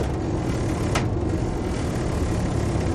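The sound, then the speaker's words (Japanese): Loud noise inside a moving car, a dense, steady roar and rumble that holds level throughout without pause, with no voices over it. “すごい音だなマジで。これなんだろう、私この車あと何十万キロぐらい乗りたいんだけど”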